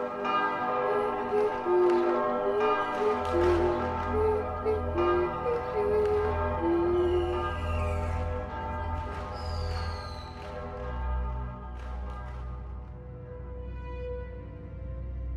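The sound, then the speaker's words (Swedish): Church bells ring in the new year: many overlapping, resonant strokes peal loudly together, then slowly thin out and fade as the ringing continues. “Ring in det nya och ring ut det gamla i årets första skälvande minut.”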